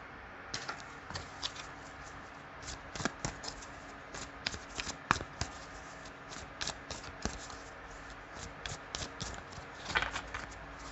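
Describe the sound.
Tarot cards being shuffled by hand: many crisp, irregular flicks and riffles of card stock, some sharper and louder than others, run through the whole stretch at a soft level with no talking.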